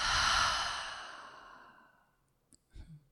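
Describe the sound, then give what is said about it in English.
A deep, breathy exhale after a full inhale starts loud and fades away over about two seconds. A short catch of breath and a soft breathy sound follow near the end. “Let's just take a really deep breath and see if we can find the answer to that inside of ourselves. Full inhale. And exhale.”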